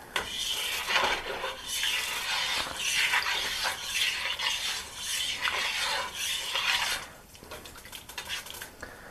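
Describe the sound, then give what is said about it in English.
A spoon stirs seasoned food in a pot: steady scraping and rubbing strokes run continuously for about seven seconds, then drop to quieter, scattered scrapes. No talk is heard. “Just kind of sprinkling quite a bit in there. Then we will stir it up.”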